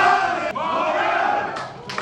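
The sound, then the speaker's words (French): Dozens of Impact de Montréal supporters and ultras roar and chant together at Pierre-Elliott Trudeau airport in Montreal, welcoming a new star coach. The dense, loud crowd sound stays steady for the whole clip. “Des dizaines de supporters, des ultras de l'Impact étaient présents et ont fait entendre leur joie d'accueillir une nouvelle star dans ce club”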